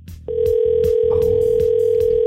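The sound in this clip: Ringback tone heard on an outgoing telephone call. A click leads into a steady, unbroken electronic tone that holds evenly for about two seconds, with faint rumbling underneath.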